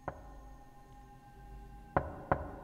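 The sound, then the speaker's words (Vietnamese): Three sharp knocks on a door, one on its own and then a quick pair close together, each crisp and fairly loud over a faint steady hum. “vừa đi được ba bước thì cái âm thanh cộc cộc ấy lại vang lên”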